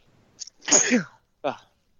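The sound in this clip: A single sneeze, a sharp breathy burst with a quick intake just before it, followed after a brief gap by a short spoken response.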